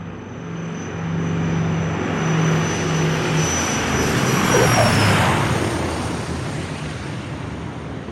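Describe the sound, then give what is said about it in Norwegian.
A small passenger plane landing at Bergen airport in Norway: a steady, loud engine drone swells toward the middle and then eases, with a thin high whine running above it. “Lige om lidt lander et fly i Bergen op i Norge”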